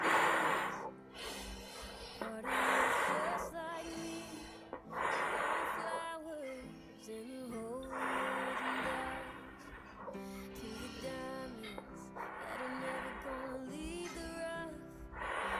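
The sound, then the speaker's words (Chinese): Several slow breath cycles from a breathing exercise, inhaling through the nose and exhaling through the mouth, recur at a steady pace as soft, airy rushes over quiet background music. “首先大家再给我练一下呼吸，鼻吸，口呼。”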